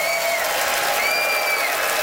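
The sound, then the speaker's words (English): Applause from an audience voting for a debater at a live comedy debate show in Ottawa: a steady, dense wash of clapping that holds evenly through the whole clip. “it is up to you to vote, Ottawa, by applause, who thought that Adam's pro-Tom Cruise points were far and away the best”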